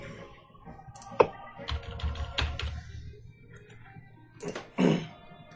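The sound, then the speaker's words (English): Rapid, irregular clicking of a computer keyboard being typed on, with many light keystrokes in uneven bursts and a sharper louder click near the end, over a low background hum. “having to deal with the passive clicking of my keyboard”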